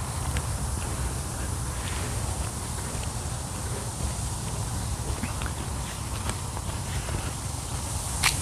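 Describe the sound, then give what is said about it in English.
Footsteps of someone on a morning walk crossing a street, soft and rhythmic, tapping steadily beneath a constant outdoor hiss with occasional faint ticks and rustles. “I'm gonna cross the street so I could walk in the shade.”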